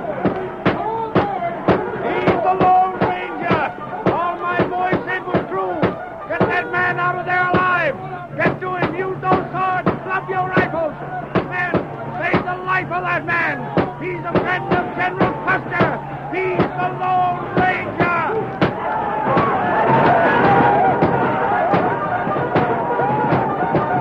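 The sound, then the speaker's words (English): A battle sound effect of gunfire and the hooves of 600 galloping cavalry horses as troops charge: a dense, continuous volley of rapid bangs and thuds that carries on without pause and swells louder near the end. “a new burst of firing accompanied by a thunder of 600 horses' hooves, announced the coming of the troops.”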